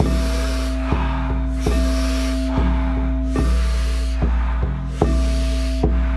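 Rapid, forceful breathing during a breath work exercise: loud, hissing breaths repeat in a steady, regular rhythm over a low, sustained background tone.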